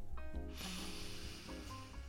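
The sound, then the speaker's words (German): A deep, forceful sniff drawn in through one nostril while the other is held shut, a brief onset followed by a steady, airy rush of breath that lasts over a second. “halten Sie sich erst das eine Nasenloch zu und atmen Sie tief ein. Wiederholen Sie das mit dem anderen Nasenloch.”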